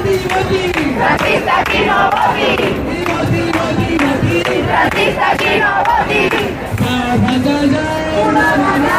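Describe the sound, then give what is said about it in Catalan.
Around two thousand people at a Barcelona housing protest chant loudly in unison, rhythmic shouted slogans over constant crowd noise and some clapping, with a few brief dips between phrases. “És el so de la mobilització en record de la Mari Carmen, la dona de 87 anys a la que un fons voltor va privar del seu desig de morir-se a casa seva”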